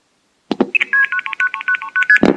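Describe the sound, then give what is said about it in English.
Old long-distance telephone dialing tones: a couple of clicks, then a rapid run of many short, evenly spaced electronic beeps at shifting pitches, ending in a brief noisy click. “in the old days, if you placed a call, a long-distance call, you'd hear something like this.”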